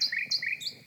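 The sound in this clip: Nightingale song, a brief phrase of a few clear, high whistled notes sung in quick succession, with no voices.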